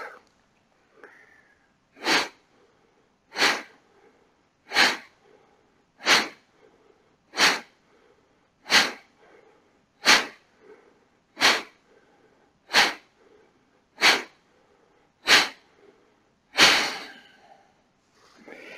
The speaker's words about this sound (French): Nous nous préparons pour une troisième série. Environ 12 expires.